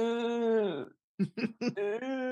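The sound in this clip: A man's voice imitates a groan. A long, sustained moan drops in pitch and fades, then three short voiced bursts follow before another drawn-out moan.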